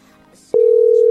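A steady, single-pitched telephone tone from a call that goes unanswered, starting abruptly after a brief faint stretch and holding loud and even until the end.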